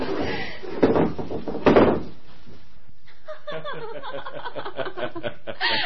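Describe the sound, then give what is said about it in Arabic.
A door is shut and locked from outside, with two sharp wooden bangs in quick succession, followed by chuckling voices. “ما تخافش يا زقزوق، انا هقفل عليك الباب من بره عشان ما حدش يشوفك بالمرة.”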